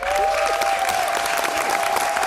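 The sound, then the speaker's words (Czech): A theatre audience in Kraków applauds at the end of a play, giving dense, sustained clapping from many hands. A faint steady tone runs underneath the applause throughout. “I diváci v Krakově na konci představení dlouho tleskali.”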